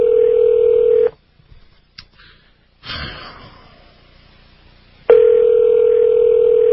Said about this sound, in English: Calling the Art Bell Listener's Hotline, whatever that is, from the Rocky Mountain News.